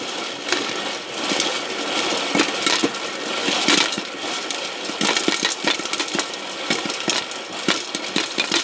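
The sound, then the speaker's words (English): Kernels popping and rattling inside a spinning stovetop Whirly Pop popcorn maker: a loud, continuous rattle with many sharp pops scattered throughout. “That was the sound of our Whirly Pop popcorn maker. It spins so the heavier kernels fall to the bottom and pop.”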